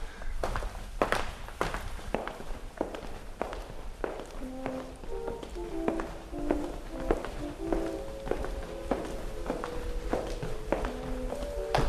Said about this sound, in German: Und wenn wir jetzt laufen, dann laufen wir wirklich echt, ohne dass wir auf der Stelle gehen